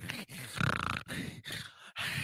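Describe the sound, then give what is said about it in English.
A man's voice imitates another man breathing in before he talks, making a few strained, voiced gasps and groans in short bursts with brief gaps between them. “Ray, before he talks, he always breathes. He's like...”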